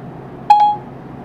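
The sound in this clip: A phone's Siri voice assistant gives its activation chime, a short, bright two-note electronic beep that rings briefly and fades against a quiet background.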